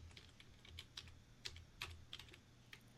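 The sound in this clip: Faint typing on a computer keyboard while a website address is entered: many light, irregular key clicks, some sharper than others, over a low steady hum.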